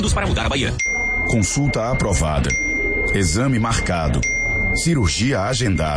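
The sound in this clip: Three bright bell dings, a sound effect for a moving hospital queue in a Bahia health program, ring out one after another under continuous talk.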